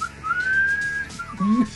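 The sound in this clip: Someone whistles a short tune: a long, clear note that rises slightly, then a briefer, lower note. The whistling is moderately loud over faint background noise.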